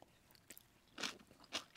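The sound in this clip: Crisp bites into crunchy daikon radish kimchi topped with shredded daikon and filled with red pepper seasoning paste. Two loud, sharp crunches stand out, with a fainter crunch before them and another starting at the very end.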